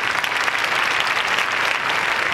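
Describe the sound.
Applause from an audience at a stage event, a continuous, dense wash of many hands clapping, loud and even from start to finish with no voices over it.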